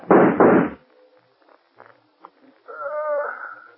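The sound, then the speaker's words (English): Two loud gunshots fired back to back at an unseen man, each a sharp, heavy blast, followed by faint knocks and then a brief vocal sound. “If you won't shoot, I will. I'll get him even if I can't see him.”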